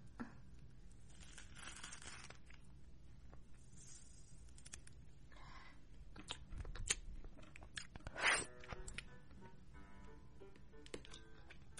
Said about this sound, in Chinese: 现在我要把香蕉剥开来了